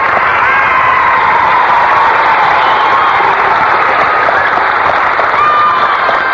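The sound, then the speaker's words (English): A studio audience applauds with some cheering, a loud, dense and unbroken wash of clapping that stays steady from start to finish. “Well, Sybil, sounds like our audience out there is excited about something.”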